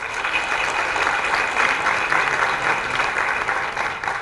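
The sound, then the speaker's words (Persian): Audience applause, a dense, steady wash of clapping that stays loud throughout without pause. “آفرین برای خودتون یه دست بزنین”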